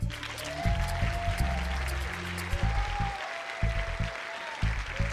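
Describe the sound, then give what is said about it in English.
An audience applauds to welcome a speaker onto the stage at a Detroit event. A steady wash of clapping lasts the whole time, with a few brighter swells along the way. “Ladies and gentlemen, please put your hands together and give a big, warm Detroit welcome to Ann Doyle.”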